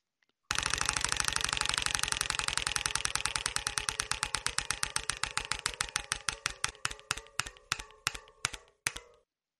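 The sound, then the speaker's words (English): A prize wheel spun during a trivia game, its pointer rattling off a fast, loud stream of ratcheting clicks that steadily slow and spread apart until the last few isolated ticks bring it to a stop. “So we have one more spin of the wheel, and it's still anybody's game. All right. Spin that wheel, sir. Here we go.”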